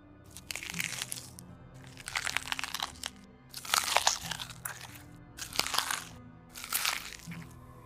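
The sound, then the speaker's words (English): Someone eating with loud, crisp crunching and biting, coming in about five distinct bursts of chewing separated by short quiet gaps, each burst a dense run of cracks and crushes. “Oddly enough, the sound of eating could be heard clearly from the parking lot.”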